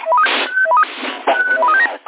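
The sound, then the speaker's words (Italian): A CB radio roger beep plays as two quick runs of stepped electronic tones, each climbing through a short melodic sequence. The tones are loud and sit over hissy, band-limited radio static. “questo è il bip numero 4”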